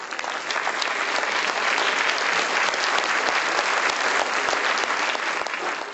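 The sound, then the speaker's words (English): An audience applauds to welcome a guest speaker at a book premiere, a dense, steady clapping that holds at an even level throughout with no voices rising above it. “Please put your hands together to give Ms. Brasesco a warm welcome.”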